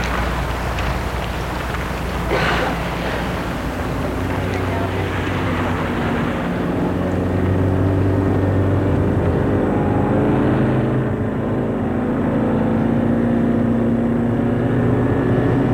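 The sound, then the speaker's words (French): A taxi's engine rumbles as the car starts and drives off, a steady low drone that swells slightly in loudness partway through and continues without a break. “Et il monte dans un taxi. Dit, hôtel, terme. Et le taxi démarre.”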